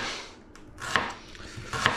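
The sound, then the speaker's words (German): Knife strokes cut through onion halves on a cutting board while slices are made for a Japanese dish, giving a few sharp, crisp chops with short gaps between them and no talk. “Und die letzte Hälfte auch wieder oben, unten cutten. Und in Scheiben schneiden.”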